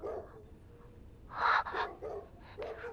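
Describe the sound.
Dogs barking in a courtyard: a few short barks in quick succession near the middle and end, moderately loud over a low background murmur.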